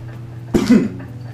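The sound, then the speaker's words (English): A single harsh cough bursts out after a hit of a joint. It is short and loud, with a quiet low hum before and after and no talking. “you need to quit coughing, it's your hit. Oh, yes, and exhale.”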